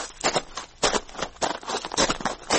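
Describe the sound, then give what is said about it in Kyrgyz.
Footsteps on a stone road, repeating in a video artwork about a rural woman carrying water home; steady, crisp scuffing steps fall at an even walking pace, with no voices. “Таш жолдо бараткан кадам уламдан улам жакындап, бирок соңуна чыкпай тынымсыз кайталана берет.”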